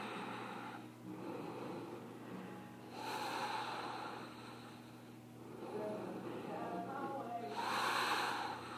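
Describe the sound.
Slow inhaling during a yoga stretching class, heard as soft, breathy rushes of air that swell and fade over a steady tonal background.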